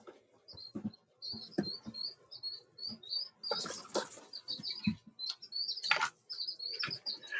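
Chicks chirping under a heat lamp, with many high, thin peeps repeating in quick succession, fairly faint, mixed with soft rustling and scratching thumps.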